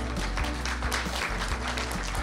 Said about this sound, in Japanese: 大きな拍手でお迎えください。